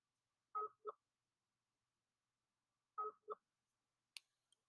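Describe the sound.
Skype call dialing tones sound as two identical double-note bursts, quiet and evenly spaced about two and a half seconds apart, followed by a short, sharp click.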